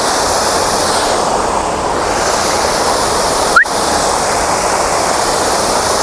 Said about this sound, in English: I think these are the same waterfalls as the ones that I got further down.